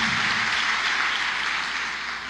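An audience applauding during a sermon: a dense, continuous rush of clapping that holds steady for about two seconds, then eases slightly at the end.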